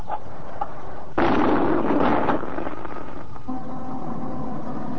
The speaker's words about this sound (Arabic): هنا الاسكندرية وانطلق مدفع الافطار